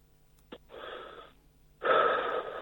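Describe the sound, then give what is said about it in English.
A deep, slow drag on a cigarette heard over a telephone line: a faint click, then a soft breathy rush, then a second, louder and longer airy rush. “Right, shall I take a deep, slow drag off Yes, please. Let's all hear it.”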